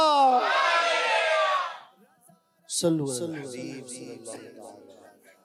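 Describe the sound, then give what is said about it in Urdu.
A crowd chants a slogan in unison on request at a devotional poetry recital and verse contest, a loud, sustained block of voices that cuts off. After a short pause, a single voice begins reciting. “نعرہ لگائیے فیضان رضا.”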